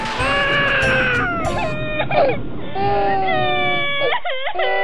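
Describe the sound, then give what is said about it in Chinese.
A narrator's voice imitates two children crying, a piglet and a little elephant in a picture-book story, with a run of drawn-out, wavering wails and sobs. “小象看到小猪这样说，也觉得很伤心，两个小朋友都哭了起来。”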